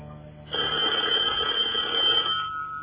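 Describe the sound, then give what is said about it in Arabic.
A telephone rings with one steady, sustained electric bell tone lasting about two seconds, then stops, over a faint background hum. “التليفون يا صابر.”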